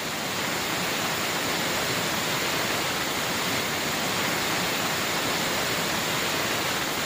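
A large waterfall swollen after heavy rains, a dense, continuous roar of rushing water that stays loud and even throughout with no breaks.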